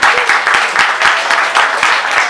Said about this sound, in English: one more round of applause for our readers.